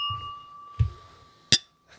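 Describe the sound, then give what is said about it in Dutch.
Glasses of blond beer clinking together in a toast: a single sharp, bright clink stands out, preceded by a couple of soft low knocks, over a steady faint hum with no talking. “Zullen we even proosten? Ja, doen we. Goed dan. Proost.”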